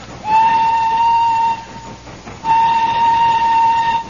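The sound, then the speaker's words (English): Two long, steady whistle blasts from a steam train climbing slowly up a mountainside. The first lasts about a second and a half, and after a short gap the second runs to the end. No voices are heard. “And so, as the train chugs slowly up the side of the mountain, we find in the engine the driver and fireman hard at work.”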